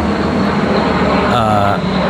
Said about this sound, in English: Airplane.